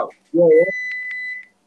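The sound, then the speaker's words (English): A short burst of voice, then a steady high electronic beep from a microwave oven held for under a second with a few brief pulses on top. “you gotta stop using the microwave and having that curry go”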